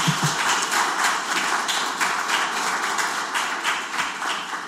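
Applause welcoming a visiting group of secondary-school students from a Vilnius gymnasium, a steady, dense patter of many hands clapping at an even loudness throughout, with no voices.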